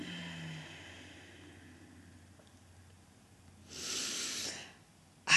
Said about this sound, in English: And the third, deep, deep inhale. Remembering that the only time and place you can ever affect anything is here and now. So exhale with a smile.